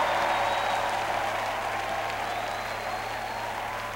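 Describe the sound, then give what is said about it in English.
Studio audience cheering and clapping, a dense, steady wash of applause that stays loud throughout and eases off slightly toward the end. “would cheer for anything, wouldn't you? Try it again.”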